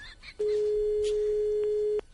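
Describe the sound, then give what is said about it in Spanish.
A telephone rings with one steady, unbroken electronic tone lasting about one and a half seconds. It is loud and level from start to sudden stop, over a faint background hiss. “Y al momento sonó el teléfono.”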